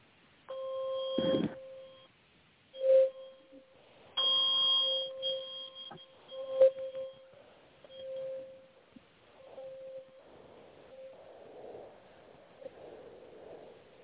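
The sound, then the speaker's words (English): A meditation bell, different from a singing bowl, is struck a few times. Each strike rings out as a clear, pure, sustained tone that slowly fades, with quiet gaps between rings and a softer, hazier tail at the end. “528 hertz, which resonates with your heart and your third eye. So I'm going to go ahead and ring this. It's a little bit different sound than the singing bowls, but still has a beautiful, beautiful result anyway.”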